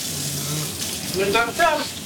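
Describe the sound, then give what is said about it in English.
Running water gushes steadily from a tap as hands are washed beneath it, a continuous hiss with voices talking over it. “But first, let me wash my hands. Oh, wash your hand first. Good. I should also wash my hand too.”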